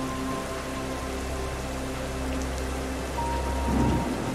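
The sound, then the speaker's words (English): Heavy rain pours in a steady, dense hiss that stays continuous throughout, swelling slightly louder toward the end, with no voices. “It can be heavy rain, the wind,”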